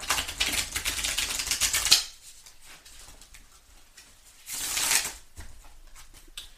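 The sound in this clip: Tarot cards are shuffled in two bouts: a long run of crisp, rapid riffling flutters, a quiet stretch, then a shorter burst of shuffling.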